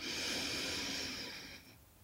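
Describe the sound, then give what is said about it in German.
A single long breath drawn in through the nose during a guided breathing exercise: a steady, airy hiss that holds for over a second and a half, then fades away. “Und ein letztes Mal nochmal einatmen über die Nase.”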